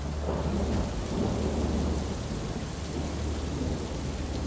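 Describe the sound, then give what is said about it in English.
Thunder rumbles through a storm in a steady, loud, continuous roll of deep, low energy, with the hiss of rain running beneath it throughout. “Later that night, the storm was right on top of us.”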